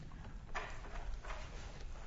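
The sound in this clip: Hooves of a donkey and a colt clop along at a walk in a steady, even run of many soft hoofbeats. The sound is fairly faint, with no voices.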